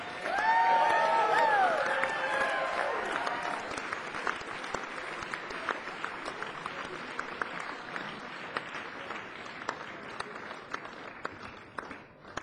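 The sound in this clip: Audience applause with some cheering welcomes a percussionist onto the stage, loud at the start and then settling into steady, dense clapping that continues to the end.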